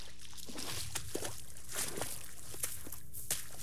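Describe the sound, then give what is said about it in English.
Footsteps slosh through the shallow water of a little pond, a few separate wet splashing steps at an unhurried, uneven pace over a steady low hum, with no talking. “Right now, I'm walking across a little pond.”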